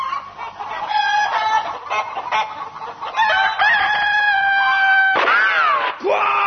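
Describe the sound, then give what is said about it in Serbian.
A bird squawks in loud, harsh, rooster-like calls rich in harmonics, running almost without pause, with the last few calls swooping up and down in pitch. “Quiet! Stupid bird!”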